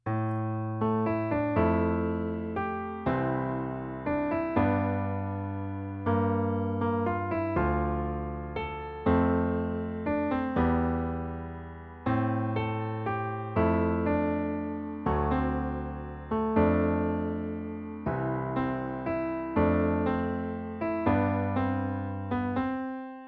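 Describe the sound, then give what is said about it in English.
Instrumental waltz melody, a warm, playful adventure theme from a television drama score, moving in regular triple-time phrases of struck, decaying notes over sustained low harmony, with no voices. “It's a waltz. It's a beautiful melody. It sounds like this.”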